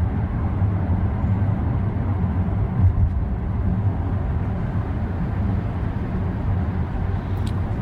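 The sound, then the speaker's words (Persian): Malik's car drives along, heard from inside the car in a drama scene as a steady, low engine rumble and road hum that continues without a break. “مالک حرکت میکنه. داخل ماشین مالک.”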